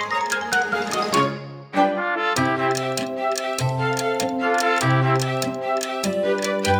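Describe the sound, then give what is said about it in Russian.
A clock's steady tick-tock clicks keep an even, quick beat layered over a bright, melodic tune. “Часики наши спешат, тик-так, тик-так, тик-так, тик-так.”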